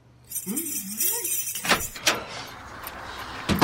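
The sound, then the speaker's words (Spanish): Keys jangling and a door being opened: a brief voice is heard first, followed by a few sharp metallic clinks and knocks, then a softer rattling noise. “¿Dónde están mis llaves? Acá está. ¿Cuál será la puerta? Ahí está, ahí está.”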